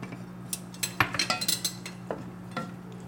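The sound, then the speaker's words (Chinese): A spoon stirring rice wine into a drink, clinking against the cup in a quick run of light, bright chinks, then a few sparser taps, with no talk over it. “啊，米酒在你旁边。 先加的。 对，加，直接加下去，然后把它搅拌一下。”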